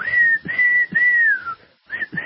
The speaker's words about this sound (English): Anybody out there good at whistling? I was trying to whistle along with that song.